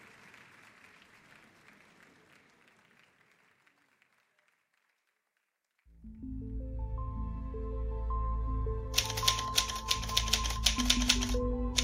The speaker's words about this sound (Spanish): ¿Qué haces, mamá? Estoy escribiendo. Es un diario.